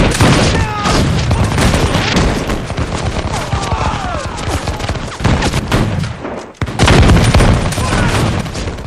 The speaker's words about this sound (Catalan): hi ha un bombardeig terrible.